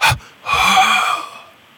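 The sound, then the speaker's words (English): A deep breath in and out during a relaxation exercise: a short, sharp intake, a brief pause, then a longer, airy exhale with a faint voiced edge, heard alone without talk. “Breathe in with me. And then you breathe out.”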